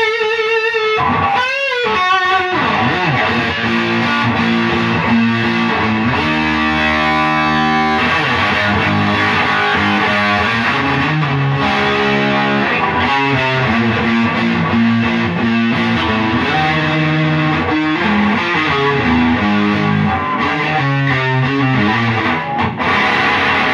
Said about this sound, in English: You can hear that octave there. It's like really strange, almost Fox Tone Machine sounding octave.